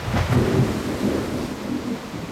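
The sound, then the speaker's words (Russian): Thunder rolls through a heavy thunderstorm with strong wind and large raindrops pelting leaves, a deep rumbling swell that fades away over steady, dense rain hiss, with no voices. “Сильный ветер внезапно загудел в вышине, деревья забушевали, крупные капли дождя резко застучали, зашлепали по листьям. Сверкнула молния, и гроза разразилась.”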